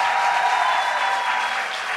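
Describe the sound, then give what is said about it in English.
Steady applause from a crowd cheering legislators after a long-awaited vote passed, a continuous, fairly loud clatter of clapping hands over two seconds with no talk. “let's give a round of applause to all the legislators who finally got it done.”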